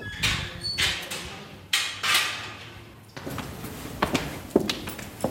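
Footsteps descend the many stairs into the San Sebastiano catacombs on the Via Appia. Hard, irregular thuds and scuffs land one after another, with a few louder stomps and some lighter taps.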